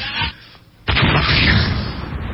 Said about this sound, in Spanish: Explotó la casa de Tony Ronald